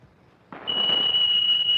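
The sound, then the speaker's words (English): A smoke alarm set off by cigarette smoke sounds one steady, piercing high tone that starts after a brief rush of noise and holds unbroken and loud to the end. “Oh, the smoke alarm. Those cigarettes you're puffing on set it off.”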